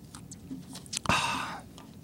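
A sip of water from a glass makes a single brief, soft slurp near the middle, with quiet mouth sounds before it.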